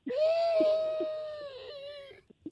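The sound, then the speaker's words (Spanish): A child wails in one long, drawn-out cry at a steady high pitch for about two seconds, then falls quiet. A few faint clicks follow at the end. “Ya, hijo, no llores.”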